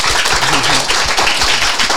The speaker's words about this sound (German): Und ich würde auch sagen, einen großen Applaus für dich und natürlich auch für euch.